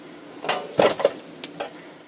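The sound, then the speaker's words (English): A raw whole bird is set breast side down into a roasting pan, producing a few clattering metallic knocks and thuds of moderate loudness, with no talk. “And I'm going to put it in that roasting pan breast side down.”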